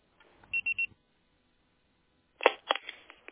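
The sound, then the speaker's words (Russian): Short electronic beeps on a phone line after a recorded voicemail message, three quick high tones in a row, then a pause and a scatter of faint clicks and line noise. “Пожалуйста, попробуйте перезвонить позднее или оставьте сообщение после звукового сигнала.”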